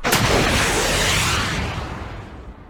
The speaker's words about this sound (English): I heard the hiss of the rocket as it launched.